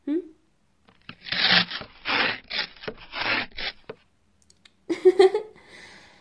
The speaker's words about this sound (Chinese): 那个就是今天送来的快递吧？嗯，哼，去，把它拆开。